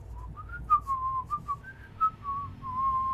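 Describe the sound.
Whistled birdsong: a faint run of short, pure whistled notes at a fairly steady pitch, some gliding slightly, over a low background rumble.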